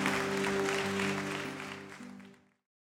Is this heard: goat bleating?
no

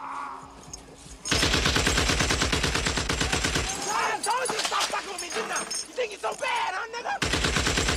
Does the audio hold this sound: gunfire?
yes

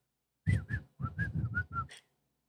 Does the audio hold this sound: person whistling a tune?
yes

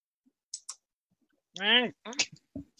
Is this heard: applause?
no

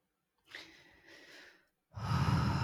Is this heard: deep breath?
yes

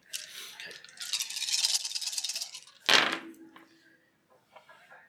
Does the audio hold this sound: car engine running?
no

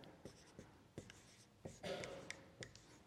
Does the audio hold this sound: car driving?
no

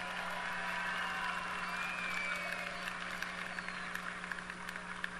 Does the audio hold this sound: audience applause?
yes

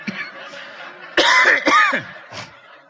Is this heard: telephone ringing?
no

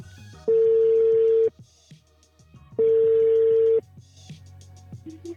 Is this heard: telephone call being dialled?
yes

